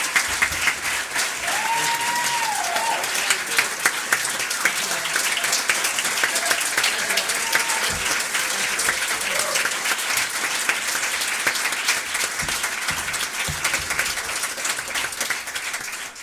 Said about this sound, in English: Would you give them, those that are going to be participating today, a hand? Amen. Let's make them welcome this morning.